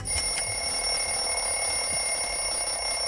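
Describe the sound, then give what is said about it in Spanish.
An electronic timer end signal rings out during a guessing game, sounding like an alarm clock: a steady, loud, high-pitched tone that holds unbroken through the whole stretch with no voices. “ha sonado el final del cronómetro, que suena como un despertador.”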